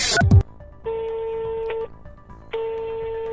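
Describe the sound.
An outgoing telephone call rings out after a short handling clatter: two long, steady electronic ring tones at an even pitch, separated by a brief silence, the second cut off at the end.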